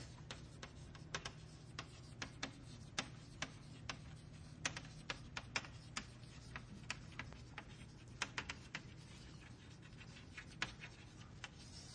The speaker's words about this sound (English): Okay, I could start by writing the title.